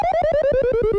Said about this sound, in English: That's the sound of the dog in Duck Hunt laughing at you when you lose the game.